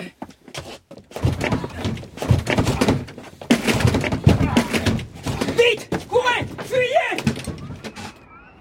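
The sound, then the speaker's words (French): Heavy thuds of a back door being kicked down, with several dull blows mixed in among people talking. “La porte de derrière, elle donne sur un sentier. Je vais la défoncer.”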